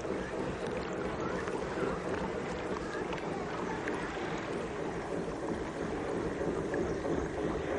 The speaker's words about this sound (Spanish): El transbordador atraca.